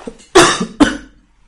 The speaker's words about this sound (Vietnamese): Ho quá. Buồn ho quá.